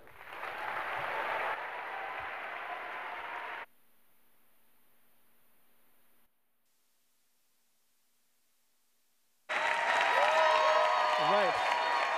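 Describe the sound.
An audience applauds to welcome guests on stage at a San Francisco Foundation event in the Bay Area. Dense, steady clapping lasts about three and a half seconds, then cuts to near silence before a voice begins speaking.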